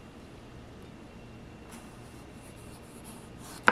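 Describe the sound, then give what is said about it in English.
An Okingjoy kitchen knife slices a potato very thinly, giving faint, repeated scratchy strokes over a quiet background. It ends with one sharper, louder knock of the blade. “And yeah, it just glides through the potato. I'm going to see how thin I can make these. And you can make them really thin.”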